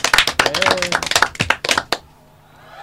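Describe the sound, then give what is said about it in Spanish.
Canned clapping sound effect dropped into a chatty talk show: a dense, bright burst of many quick claps lasting about two seconds, a voice briefly over it, then an abrupt cutoff into near silence. “Soy un poquito lenta poniendo los efectos. Aquí has sonado dos aplausos”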